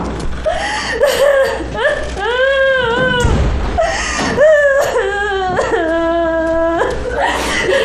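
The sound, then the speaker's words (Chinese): A distressed mother sobs and wails over her small child. Her crying voice is loud and quavering, breaking into repeated high, wavering cries with gasping pauses between them. “别哭了”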